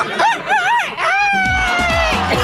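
Rooster crow rises in wavering notes and then stretches into a long, slowly falling call, followed by a run of short, repeated clucks from chickens, all loud and alone without talk.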